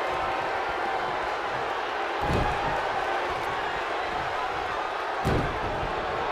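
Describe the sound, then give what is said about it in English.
Heavy body impacts from a wrestling belly-to-belly slam in a pro wrestling tag match: two loud, booming thuds a few seconds apart over a constant roar of crowd noise. “Sheamus with that huge belly-to-belly slam. Picks him up once again.”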